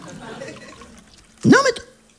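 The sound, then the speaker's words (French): A drink is poured into a glass in one short, gurgling splash whose pitch rises as the glass fills, amid low talk. “Allez, on va boire un petit verre. Oh, bah, si, quand même. Bon, bah, écoute, écoutez, moi, je me sers.”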